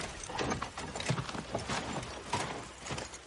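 Soft, irregular clip-clop of a horse's hooves as the horse is led by the reins in a fantasy drama, with light clinks mixed in.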